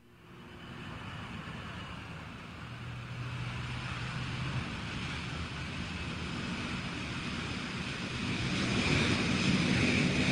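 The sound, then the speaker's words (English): A jet airplane taking off from an airport, with a broad, continuous roar that builds steadily and grows loudest toward the end. “That's a jet airplane taking off from the airport.”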